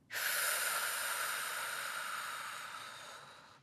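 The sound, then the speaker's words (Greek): A single long, steady breath, part of a deep belly-breathing exercise, holds as a soft, airy, breathy rush for about three and a half seconds before slowly fading. “βαθιά εισπνοή, εκπνοή, άφησε όλη την ένταση να φύγει.”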